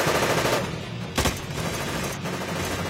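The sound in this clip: Rapid automatic gunfire in a video game, bullets striking the ground around a fallen body with no cover. Dense, unbroken bursts of shots roll on throughout, with one sharper, louder impact near the middle.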